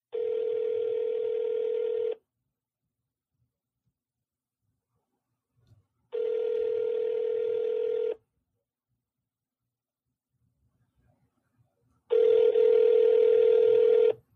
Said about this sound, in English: So I'm going to call him If he answers, we'll let him know